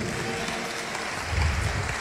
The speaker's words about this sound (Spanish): Aguanta un aplauso a Cristo